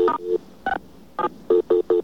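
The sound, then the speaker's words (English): Telephone keypad tones sound as star 67 is dialed: a series of short, sharp electronic beeps with uneven gaps, several close together near the end, clear and alone. “Now, we're calling the voice bulletin board again, but this time we're dialing *67.”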